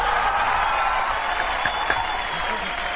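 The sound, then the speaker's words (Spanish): Applause: a dense, steady wash of clapping holds evenly for about three seconds, with no single claps standing out. “Un aplauso.”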